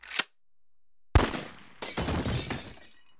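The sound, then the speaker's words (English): A single pistol shot fired once, heard as one sudden loud crack with a deep thump that decays quickly, followed by a longer noisy rush. A faint short click comes earlier, set apart by near silence. “Without a second thought, and in almost one single motion, the young man drew a bead on the shape and fired once.”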